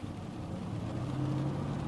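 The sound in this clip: A car driving on the road gives a steady, low engine rumble with a continuous droning hum and no voices.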